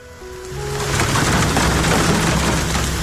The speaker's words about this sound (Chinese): 这一听，雨滴敲击屋檐的声音，